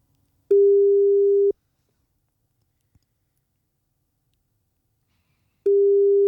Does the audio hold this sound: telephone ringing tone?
yes